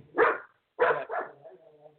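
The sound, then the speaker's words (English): A dog barking: three short, loud barks, one alone and then a quick pair, followed by a fainter, wavering whine. “I don't know how much dog noise is coming in.”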